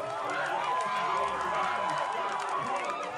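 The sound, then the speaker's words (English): Excited crowd of friends and family cheering and shouting as a swimmer powers to gold in a men's 200 metres freestyle race, a dense, steady roar of many voices throughout. “this was the sound of Tom Dean's friends and family as the swimmer powered to gold in the men's 200 metres freestyle.”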